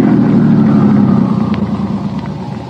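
A car engine left running gives a steady, low idling rumble, heard alone, with its level dropping slightly toward the end.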